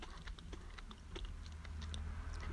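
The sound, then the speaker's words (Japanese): Shrimp crackers being eaten, with many faint, quick, crisp crunches in an uneven rhythm. “エビせんっすねエビせんあのー、うんまあ美味しいですねエビせん”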